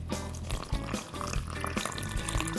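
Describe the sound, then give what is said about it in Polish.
Half a glass of warm water poured into a bowl of wholemeal flour for dough, heard as a faint, continuous trickling pour with a soft, splashy texture throughout. “Następnie do mąki dodajemy 0,5 szklanki ciepłej wody”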